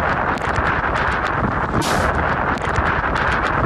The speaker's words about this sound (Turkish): Tayfun bölgeye sel getirdi. Kamyon şiddetli rüzgarın etkisiyle devrildi.